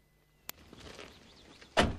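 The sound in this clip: The doors of a sheriff's car sound as the sheriff and his deputy get out: a sharp latch click, a brief soft rustle, then a loud, heavy door thump at the end.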